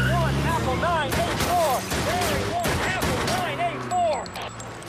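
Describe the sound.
Gunfire aimed at a car, a rapid fusillade of loud sharp shots cracking in quick succession while voices shout over the barrage.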